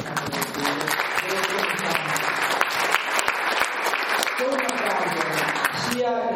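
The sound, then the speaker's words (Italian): Audience applause at an evening book event on the descendants of Jewish families: steady, dense clapping from a crowd, with a voice speaking over it at moments. “grazie a Valeria, grazie ad Orfeo, insomma un applauso”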